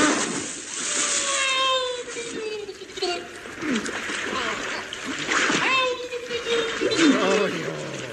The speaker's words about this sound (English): Quick, get him in this bath of turpentine.